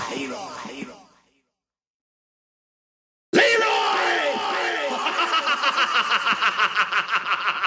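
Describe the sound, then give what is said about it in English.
A brawl breaks out on a dance floor in a 1985 martial-arts film scene: yelling voices fade into a second of silence, then a loud crowd of shouting fighters erupts over a steady rhythmic pulse. “There's a brawl on the dance floor. Fighters on the dance floor.”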